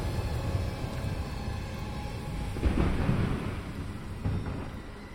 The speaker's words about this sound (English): A flash of light obscured the area as a bolt of lightning struck down, zigzagging its way towards the docks.